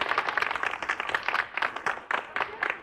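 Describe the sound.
Audience applause greeting a speaker as he is introduced: brisk, lively clapping from a group of people, dense and moderately loud across a few seconds, with no voices on top.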